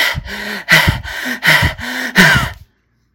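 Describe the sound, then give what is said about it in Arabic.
A voice imitates the laboured breathing of a hospital patient on a ventilator: four harsh, rasping gasps at a regular pace, loud and alone, followed by silence. “في نفس الوقت ده دلوقتي حالا في ناس في المستشفى محطوط على جهاز تنفس ونفسه بيعمل كده.”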